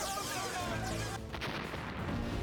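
A laser gun fires, giving a dense, harsh blast of noise that stays loud for the whole span and changes character partway through.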